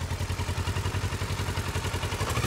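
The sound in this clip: Motorcycle engine thrumming low and steady while the bike is ridden very slowly around obstacles on a training course, with a constant even pulse and no clear revving.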